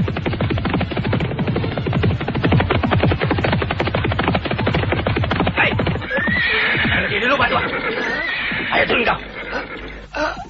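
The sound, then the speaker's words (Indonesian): Horses gallop on a stony road with rapid, dense, loud hoofbeats. Neighing and whinnying then rise over the continuing hooves. “Mereka memacu kudanya bagaikan terbang di atas jalanan berbatu.”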